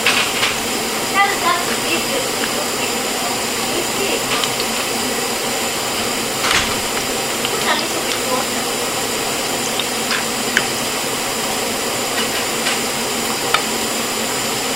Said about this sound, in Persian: سیب زمینی من این بار داره سرخ میشه، هیچ کاری باش ندارم.